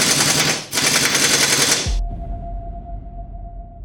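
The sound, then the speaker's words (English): A Tommy gun firing as a sound effect: rapid, loud automatic rattling in two bursts split by a brief break stops abruptly, leaving a low steady hum. “The barrel of the Tommy gun suddenly sparkled with flashing lights.”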